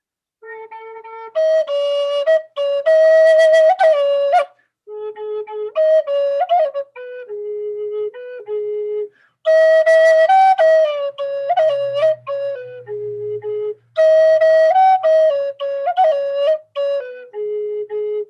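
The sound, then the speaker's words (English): Flute playing an Abenaki children's song, once sung by children to their dancing mothers: a clear, steady melody of short repeated phrases with quick ornamented runs, rising and falling, played alone in several similar sections separated by brief pauses. “sounds like this. I'll do it on a flute first.”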